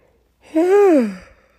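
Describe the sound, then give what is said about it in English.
A single human yawn late at night: a breathy voiced exhalation whose pitch arches up and then sinks, moderately loud and heard alone. “sorry, I yawned”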